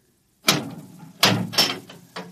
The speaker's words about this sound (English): Open the door.